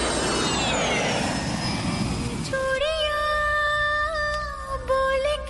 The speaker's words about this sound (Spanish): Listo, cogemos un tercer avión a ver dónde aterrizamos.